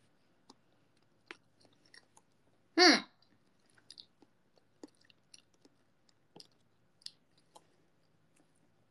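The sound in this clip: Someone chews pancake in soft, moist clicks and smacks at irregular intervals, quiet throughout, with one louder, longer burst early on and no talk.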